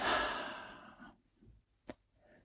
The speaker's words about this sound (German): einzuatmen über die Nase dem Atem kurz anhalten und ausatmen über den Mund.